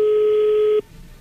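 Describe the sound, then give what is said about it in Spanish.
A telephone call is dialed, sounding as one loud, steady mid-pitched line tone that cuts off abruptly after under a second and leaves faint line hiss. “Bueno, pues ahí se está marcando”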